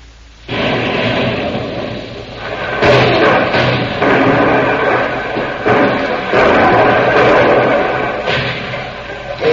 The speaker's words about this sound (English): You are throwing the grenade at the cave? Sure.